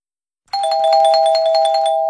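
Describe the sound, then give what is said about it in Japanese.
Chime marking the close of radio quiz entries: after a brief silence, a bright electronic doorbell-like ring of quick overlapping bell notes over a sustained tone, continuing loudly to the end. “締め切りのチャイムが鳴りました。くじクイズの受付はここで終了です”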